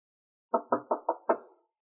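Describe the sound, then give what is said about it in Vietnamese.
Knocking on a room door: five firm raps in quick succession, the last coming after a slightly longer pause, then silence. “Rét gõ cửa phòng Madame Lim.”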